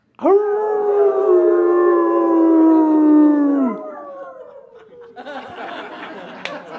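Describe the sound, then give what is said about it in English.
A person imitates a wolf howl with their voice: one long, sustained howl that holds steady, then sags and trails off, followed by softer scattered noise. “All right, let's all do wolf.”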